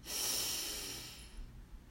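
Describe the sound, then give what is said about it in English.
Slow breathing in and out: a soft, breathy rush of air swells and then fades over about a second, followed by fainter, quieter breath noise. “Breathe in and out.”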